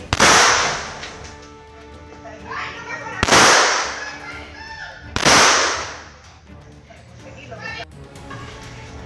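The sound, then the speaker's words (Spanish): Gunshots as a person fires several times at a family, heard as a few sharp, loud bangs spaced seconds apart, each with a brief decaying tail over a low background noise. “Y sin pensarlo, disparó varias veces contra los García.”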